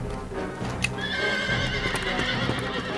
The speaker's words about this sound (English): Here, horsey, horsey. Nice horsey.